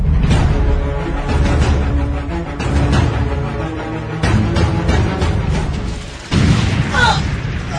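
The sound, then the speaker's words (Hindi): Heavy gunfire and booming blasts in a war radio drama about a December 1971 dawn assault on an enemy post, where a machine gun holds back the advance; a loud, dense barrage runs throughout, with a sharp fresh burst near the end. “Oh no हमारा एक और साथी शहीद हो गया वो alum जी वो machine gun जब तक नहीं थमेगी हम आगे नहीं बढ़ सकते”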